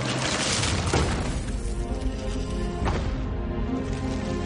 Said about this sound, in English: So blow it up. Boom! Boom!